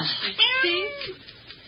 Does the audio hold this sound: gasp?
no